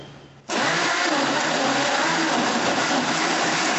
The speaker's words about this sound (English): And you blend it. Like a half of a mug of soy milk.